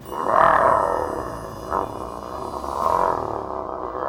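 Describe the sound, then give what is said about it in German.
A wolf's roar serves as a sound effect in a children's story, heard from inside a cave: three deep, swelling growls, loud and rough, with the first the strongest. “Von drinnen hört sie ein fürchterliches Brüllen. Den Lärm kenne ich. Das ist ein Wolf.”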